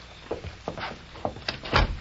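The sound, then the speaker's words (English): A door is tried and opened: a series of rattling knocks and dull thumps from the handle and frame, several short bursts at irregular intervals ending in a louder, heavier one, without any talk. “I'll try the door. Go ahead.”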